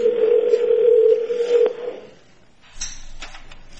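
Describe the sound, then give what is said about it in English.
A computer modem dials up, giving a steady electronic droning tone with hiss that fades after about two seconds. A quieter burst of higher static follows. “My computer when it's dialing up.”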